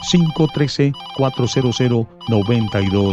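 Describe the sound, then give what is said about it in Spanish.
A telephone ringtone sounds for an incoming call, a melodic ringing tone blended with a voice talking over it. “Por acá me dice el astrólogo Adán que tenemos una nueva comunicación. Vamos a agarrar esta llamada.”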